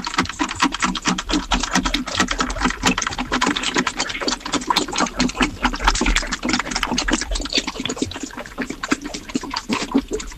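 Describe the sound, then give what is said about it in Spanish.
A sewing machine runs with steady, rapid mechanical clattering that holds its dense, even rhythm throughout, with no voices over it. “Eso es una máquina de coser.”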